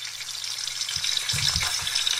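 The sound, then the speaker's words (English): Sausages sizzling in a frying pan make a steady crackling hiss throughout, with a few soft, low spitting pops partway through and no voices. “There's them sausages, isn't there?”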